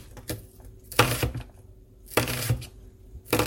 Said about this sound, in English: Here comes the red onion. Alright, red onion's all chopped up.